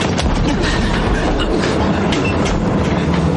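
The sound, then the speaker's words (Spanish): A fast-moving train with wagons rolls through the night on a World War II deportation route to Auschwitz. It makes a loud, steady, unbroken rumble and clatter of wheels on track that continues evenly from start to finish. “El tren va demasiado rápido para los demás.”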